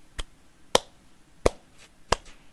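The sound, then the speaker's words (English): Hand claps imitating the sparse, stifled applause of a tiny open-mic stand-up comedy audience of five to ten people: four sharp, isolated claps spaced at fairly even intervals, quiet and alone. “and that's the audience applauding.”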